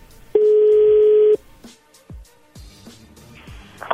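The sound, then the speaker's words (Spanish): Telephone tones from a caller redialing: one steady pure tone held for about a second, then a few short clicks and blips of differing pitch. “Ahí está marcando otra vez.”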